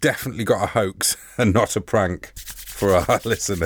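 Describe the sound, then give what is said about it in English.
Dry, scratchy rubbing of hands together, a few short brushing bursts under continuous talk from a speaker. “That was the sound of me rubbing my hands together.”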